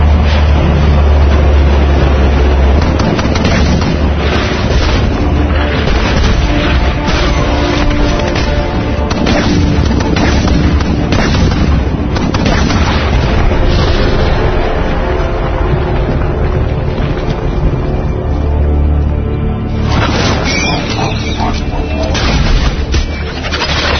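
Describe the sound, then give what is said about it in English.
Loud, continuous booming of 105 mm cannon shells firing and exploding, with many heavy blasts overlapping in a dense roar that barely lets up across the whole stretch. “use 105 shells. Bring the rain.”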